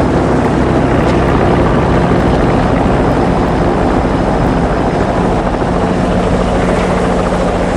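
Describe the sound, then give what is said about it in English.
A helicopter lands, its rotor and engine producing a loud, dense, continuous thumping drone that holds steady throughout, with no voices. “A helicopter lands. A man comes running from the helicopter.”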